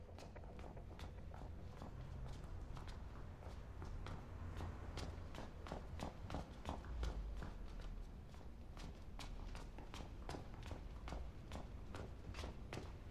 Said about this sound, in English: They ascend a large green winding stairwell.